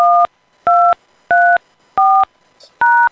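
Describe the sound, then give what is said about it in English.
Telephone keypad DTMF tones entering a voicemail password: five separate loud dual-tone beeps of differing pitch, each about a quarter second long, in a steady rhythm with short silences between. “Please enter the password you have chosen, then press pound.”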